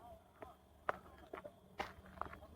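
Footsteps of someone walking outdoors during quarantine, mask and hat in hand: a few irregular, crisp steps, some sharper than others, over a faint background hum.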